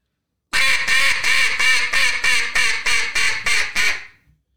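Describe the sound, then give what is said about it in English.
A hunter blows a duck call to draw in distant ducks. It makes a long, even run of loud, raspy, nasal quacks, each short burst evenly spaced. The last quack trails off, and no voices are heard. “You see ducks out in the distance, you're going to want to yell at them, say, hey, I'm over here. Come on down here.”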